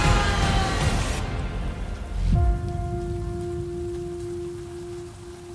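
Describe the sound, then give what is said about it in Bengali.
Storm rain pouring down in a loud, dense rush that thins out after about two seconds, leaving a softer patter under a steady, sustained low tone. “ঝড় বৃষ্টির তেজ কিছুটা কম হয়েছে।”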